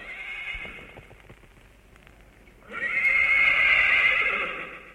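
A horse neighs in a long, loud, shrill whinny through the second half, after a quieter opening stretch of softer noise with a few faint knocks.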